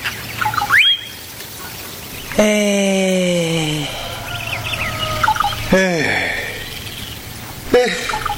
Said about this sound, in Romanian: s-audă cum cântă pitpalacile.